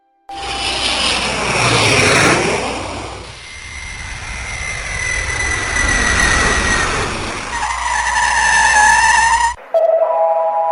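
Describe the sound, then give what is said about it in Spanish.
Airplane-style landing sound effect in an animated comedy: a loud, continuous whooshing roar with sweeping, engine-like tones and a skidding hiss. It cuts off abruptly and is followed by a short ringing tone. “Muchas gracias, señoras y caballeros, por elegir para volar a Irfombras Geniales. Y prepárense para aterrizar. Abróchense los cinturones.”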